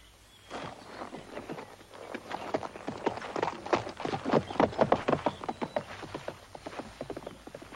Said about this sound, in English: He watches her ride away.